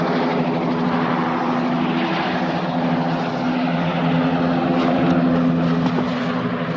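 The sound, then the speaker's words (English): A helicopter's engine drones steadily with a low, humming tonal buzz, holding a constant loud level from start to finish. “When the helicopter approaches again, they panic and run.”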